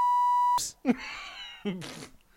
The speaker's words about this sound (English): Mr. Censor Beep, you've been fucking up. You're drunk on the job. You're not doing your job properly.